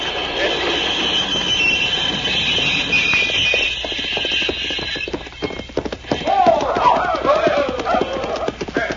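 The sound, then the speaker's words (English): A locomotive runs on the rails with a steady, dense rumbling clatter, and high squealing tones rise over the noise in the second half. “Why did you get up into the top of this locomotive? Pancho not know, Cisco. Pancho just wanted to see what it looked like.”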